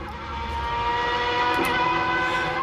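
A piston racing engine runs with a steady, loud, harmonic drone that swells slightly over the first second and then holds even.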